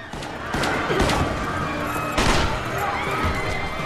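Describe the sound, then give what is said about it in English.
Gunfire as a gang opens fire on security guards inside a terminal building: a few sharp, heavy bursts rise out of a loud, continuous wash of noise that lasts throughout. “In the terminal building, the gang open fire on security guards.”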